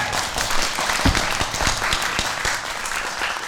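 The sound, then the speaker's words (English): Audience applause for volunteers called up at a live event: dense, steady clapping from many hands that keeps up at an even, loud level throughout. “Can we have a round of applause?”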